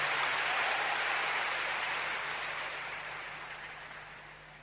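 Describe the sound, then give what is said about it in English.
Congregation applauding at a church service: a dense, steady wash of clapping that slowly fades over several seconds. “Give the Lord a big hand and take your seat.”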